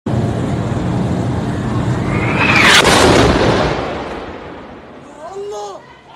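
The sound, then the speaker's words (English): A massive explosion at a hospital in Gaza City: a loud, sustained rumbling roar that swells to a peak and slowly fades, followed by shouting voices. “That's the sound of explosions at the Al-Ahli Hospital in Gaza City”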